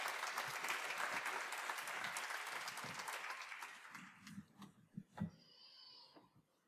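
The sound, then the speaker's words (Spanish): Audience applause at a stage workers' presentation in a theatre, a strong steady clapping that thins and dies away after about four seconds, followed by a few scattered thumps and quieter sounds. “¡Un aplauso fuerte!”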